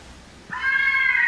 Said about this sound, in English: The sound that you're hearing, the screaming, this is the sound of the fisher cats in the woods behind my house.